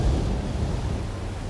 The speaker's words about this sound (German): das sanfte Schwanken des Schiffes, das monotone Rauschen der Wellen